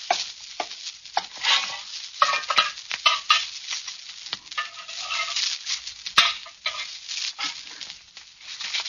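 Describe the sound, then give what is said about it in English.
Kidney broth seasoned with rosemary, thyme and basil is ladled out of a pot, with many irregular clinks and scrapes of utensil against metal and soft liquid sloshing, without any voices. “I'll ladle out the broth.”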